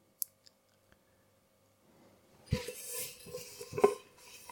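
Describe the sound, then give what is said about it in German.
A large pot is handled while drying dishes: a few faint clicks, then a quiet clatter and scrape of metal with a sharp clink near the end. “So, jetzt habe ich hier den großen Topf zum Abtrocknen.”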